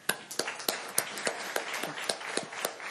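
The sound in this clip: Audience clapping welcomes a speaker to a talk. Sparse, separate claps form a steady rhythmic run of many sharp hits rather than a full wash of applause.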